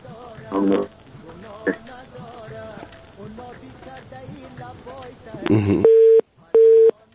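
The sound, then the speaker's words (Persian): A telephone line tone after a call dropped: two steady, mid-pitched beeps with a short gap between them, loud and clean, following a stretch of talking. “متاسفانه که تماس ما با صفی الله جان امانی قطع شد”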